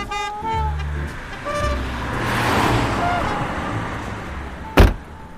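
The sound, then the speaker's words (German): A taxi on a short ride along the Spree river in Berlin, with steady road rumble that swells midway, brief tonal sounds early on and a sharp thump near the end. “Wir ähm, steigen vielleicht mal ins Taxi, Kurzstrecke, und fahren mal so zweieinhalb Kilometer die Spree entlang.”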